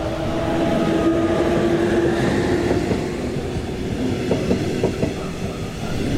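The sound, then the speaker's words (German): Trains pass through a busy, heavily used railway junction on lines heading toward the main station. A continuous loud rumble carries a rhythmic clickety-clack of wheels over the track joints, with no voices. “Also ich meine, und hier sind jetzt schon binnen weniger Minuten drei Züge allein schon Richtung Hauptbahnhof gefahren.”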